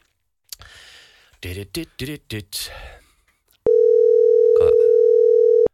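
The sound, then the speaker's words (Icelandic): A telephone dial tone plays while a call is being placed. People talk first, then the loud, flat, continuous tone holds one pitch for about two seconds before cutting off. “Ok, við skulum prófa að hringi hana Ásdísi í Garðabænum.”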